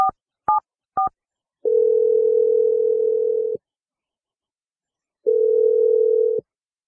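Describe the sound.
A telephone call being dialed: three short keypad tones in quick succession, then two long, steady, mid-pitched ringing tones separated by a silent gap, heard alone and clearly.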